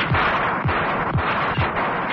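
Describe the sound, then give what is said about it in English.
Gunshots from an automatic pistol fired at point blank: four dull, booming reports at an even pace over a dense, continuous roar. “Mrs. Peel reached into her pocket and withdrew an automatic pistol. As the enormous figure pushed crates and boxes out of its way, Mrs. Peel crouched down and then fired at point blank.”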